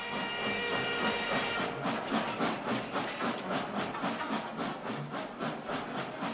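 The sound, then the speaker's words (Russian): A long, heavy train runs along the rails with a steady rumbling roar and a regular clickety-clack of wheels over rail joints, overlaid by a hissing wash. The sound is continuous and fairly loud throughout. “Во все концы страны бегут длинные тяжелые поезда.”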